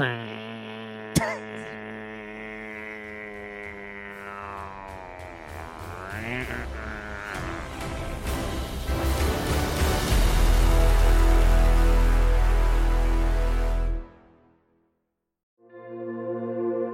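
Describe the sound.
A voice imitating a Nespresso coffee machine: a droning hum that wavers and rises into a bright buzzing whirr, swelling to a loud low rumble before cutting off abruptly.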